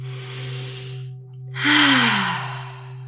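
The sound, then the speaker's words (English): A deep breath during a guided breathing moment in a talk on mental wellness: a soft airy inhale, a short pause, then a louder sighing exhale with a falling voiced tone, over a steady low hum. “Let's all take a breath.”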